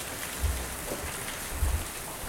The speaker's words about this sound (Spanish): nosotros haciendo radio como se hace la radio, evocando imágenes. Ahí está la lluvia. Ahí está.